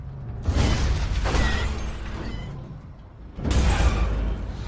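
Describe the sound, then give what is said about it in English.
A car is smashed by an unseen force: a loud crunching crash with a shattering, metallic texture that slowly fades, followed later by a second heavy smashing impact. “An invisible force smashes a car.”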